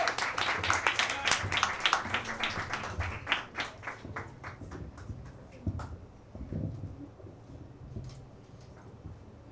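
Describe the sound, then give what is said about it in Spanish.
Audience applause at a sonorized poetry reading, a burst of dense clapping that starts fairly loud and thins out over several seconds into scattered, fading claps. “El encargado de sonorizar va a ser el artista sonoro Renato Ortiz, a quien le pido un aplauso.”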